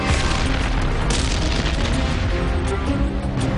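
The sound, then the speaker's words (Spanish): Artillery cannon fire during a tank battle at Arracourt, against a lightly defended headquarters: a dense, continuous roar of loud, rumbling booms with a few sharper bursts standing out, and no clear gaps between them. “Los cañones distraen a los alemanes lo suficiente como para que Leach”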